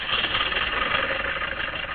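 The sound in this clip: A car engine runs in a steady, even drone with a slight rough flutter, alone and without clear changes in pitch or loudness.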